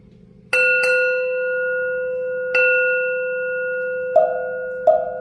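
Bell ringing: five clear metallic strikes, two in quick succession and then three spaced apart. Each strike leaves a long bright ring that lingers and slowly fades, over a faint low hum.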